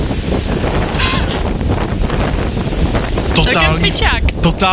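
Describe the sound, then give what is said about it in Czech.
Fierce windstorm on an overcast, wet day in Crete, caught on a video recording: constant roaring, buffeting wind hammers the microphone. Thin whistling streaks cut through the rush, and the gusts grow rougher and louder near the end. “Totální fujavice.”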